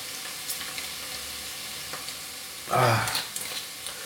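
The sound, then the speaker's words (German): Minced meat dropped into a hot pan on a stove, a sudden loud burst of sizzling that swells for a moment and then settles, with faint crackles and light clicks before and after. “So, jetzt kommt das Hackfleisch rein. Ja, das Fleisch kommt rein. Jetzt muss ich den Herd wieder höher drehen.”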